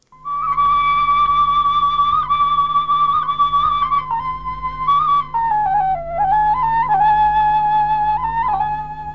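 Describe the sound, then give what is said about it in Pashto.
A shpelai flute plays a sustained, loud melody of held whistling notes that dips lower in the middle before climbing back, with a steady low hum underneath throughout. “تشخیص به دومره ګران نه وي. دا شپېلۍ ده”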